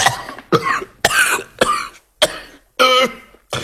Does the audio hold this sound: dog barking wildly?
no